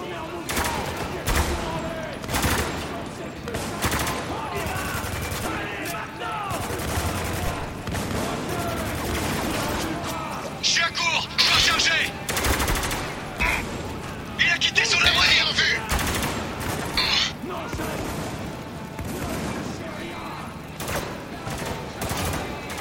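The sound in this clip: Gunfire in a combat video game, with an enemy armed with a pump-action shotgun: many sharp shots and rapid bursts crack throughout, growing louder in places, with voices shouting and talking over the fighting.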